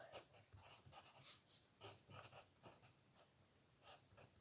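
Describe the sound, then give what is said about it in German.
Faint scratching of a pen on paper as someone handwrites a letter to their future self, with many short, irregular strokes and no voices. “Also ich schreibe das halt gerade absolut hässlich”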